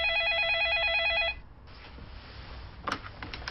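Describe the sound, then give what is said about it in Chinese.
A telephone rings with a warbling electronic tone for just over a second, then stops abruptly. Only faint background noise follows, with one brief click near the end. “这时程立栋接到了电话”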